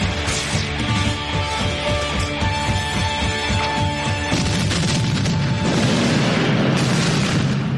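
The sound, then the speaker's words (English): A mine detonating in a heavy booming explosion, followed by a dense, sustained crashing rumble that fills the whole stretch. “Detonate the mine!”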